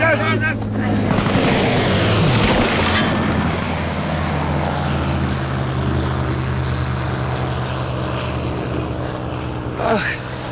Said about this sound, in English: Stukas! Take cover!